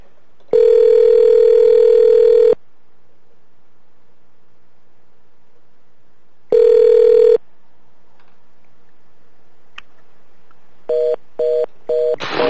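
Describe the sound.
Telephone dial tone after a call is hung up: a steady electronic tone sounds in a long burst, then a shorter one, followed by a quick series of short repeated beeps. No one speaks.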